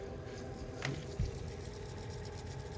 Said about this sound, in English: what I'm going to do is let you hear it rewinding to get that tape off of there